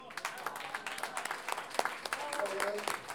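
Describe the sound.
Faint applause from an audience at a payador celebration honouring a president who signed a decree: many quick, light claps rippling throughout, with voices mixed in.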